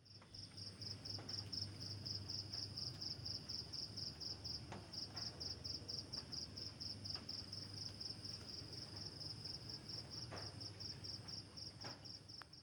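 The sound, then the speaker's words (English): Insects chirping in a jungle in the middle of the night: a steady, high, rapidly pulsing cricket chorus runs unbroken and fairly loud over a low hum, with no voices. “What you just heard were the sounds of the jungle in the middle of the night,”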